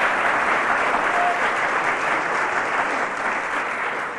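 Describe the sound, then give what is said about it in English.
Audience applause after a performance of sung songs, a dense, steady wash of clapping that stays loud for the whole stretch. “So cheers from the audience.”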